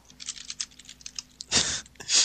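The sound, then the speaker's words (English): Typing on a computer keyboard: many quick, irregular light clicks, fairly faint, followed by a few louder, noisier bursts of keystrokes toward the end. “stop typing. Sorry, sir. I will try and remedy my typing in the future, sir.”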